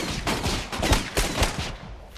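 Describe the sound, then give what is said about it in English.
Gunfire from police riddling a sand pit with bullets, a loud, continuous barrage of many overlapping rapid shots with sharp booming bursts throughout. “Chief Wiggum, Lou and Eddie riddle the sand with bullets.”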